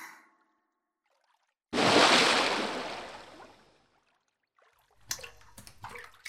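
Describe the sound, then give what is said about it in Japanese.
Water sloshes and pours as someone rises out of a hot bath, a sudden loud rushing surge that fades away over about two seconds, followed by a few faint drips and knocks. “温まったらお湯から上がって、そこに座って。”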